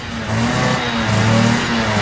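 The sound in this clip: A motorcycle engine runs at a steady low rumble with slight swells in loudness, and no voices are heard.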